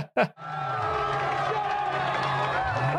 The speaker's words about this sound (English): Well, it's a raucous crowd to kick us off here. It's so raucous, Dex tells them to shut up.